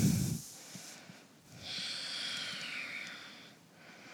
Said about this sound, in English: Breathe in. Breathe out, fold forward.